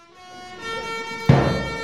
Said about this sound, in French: Des klaxons, de la musique et des appels à démission.